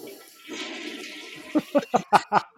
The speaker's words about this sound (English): Oh, I didn't flush yet, but I was taking a piss.